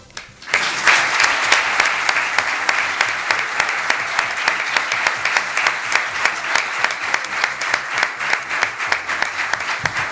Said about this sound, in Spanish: Ovación larga y continuada